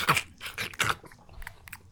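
Homemade pita chips crunch as they are bitten and chewed. Three loud crisp crunches come first, then softer chewing crunches follow.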